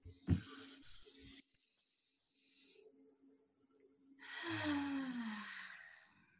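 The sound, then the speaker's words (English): A person takes deep breaths, faint and alone: a sharp inhale near the start, then a long, audible exhale that becomes a sigh with a voiced tone falling in pitch. “Let's take a deep breath.”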